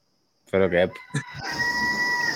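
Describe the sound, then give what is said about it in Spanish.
A rooster crows in a short, loud, harmonic burst, followed by a fainter call, with a steady hiss continuing underneath. “Están los gallos activos otra vez.”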